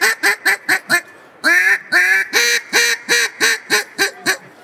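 Many duck quacks come from a blown duck call that is not a single-reed type. A quick run of short quacks is followed by a brief pause, then a longer, louder quack and a steady series of rhythmic quacks.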